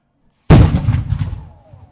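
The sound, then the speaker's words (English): A single cannon shot fired at a U.S. naturalization ceremony breaks the silence with a sharp, loud boom. A rough, rumbling decay follows and fades over about a second and a half. “There was even a cannon.”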